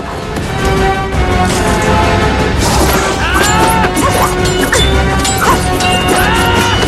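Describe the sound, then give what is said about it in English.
Swords clash in a furious fight, producing loud, repeated metallic crashes and whacks with ringing overtones that follow one another rapidly over a dense, noisy background, with no speech. “They clash furiously.”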